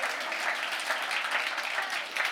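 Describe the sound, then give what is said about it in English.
Congregation clapping at the close of a church service prayer: a dense, steady patter of many hands that stays even and unbroken from start to finish. “Now you can clap.”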